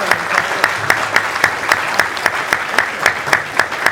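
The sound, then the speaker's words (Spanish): Audience applause at an awards ceremony for communication: dense, steady clapping from a crowd, loud and sustained throughout with a few sharper claps standing out. “y gracias Antonio por convocarnos, y este aplauso se lo merece”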